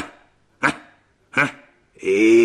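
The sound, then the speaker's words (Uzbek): A small, trembling dog gives two sharp, evenly spaced barks, then a sustained high whimper that runs to the end. “Bu o'sha kishining itlari degan.”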